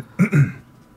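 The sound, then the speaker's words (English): A person clears their throat during a fantasy tabletop role-playing game: two short, low, raspy bursts in quick succession, fairly loud, then quiet. “you can hear someone clear their throat behind you”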